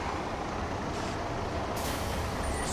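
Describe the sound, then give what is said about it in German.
Air brakes on a bus stopping beside a forest: a steady engine rumble continues, then a brighter rush of air hiss takes over for the last second or so. “Der Bus hält drüben am Wald bei Knolls Hütte.”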